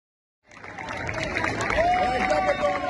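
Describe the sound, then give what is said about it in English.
Hundreds of Afghan refugees protest in Abu Dhabi, their crowd noise a dense, steady wash of many voices that begins abruptly after a short silence and holds at a fairly even loudness. “This is the sound of a rare refugee protest in Abu Dhabi in the United Arab Emirates.”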